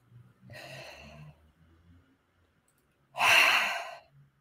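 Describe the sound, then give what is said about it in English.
A group of people take a deep breath together: a softer breath comes first, then after a pause a loud, airy, whooshing exhale like a collective sigh. “On the count of three, everyone take a deep breath for me, all right? One, two.”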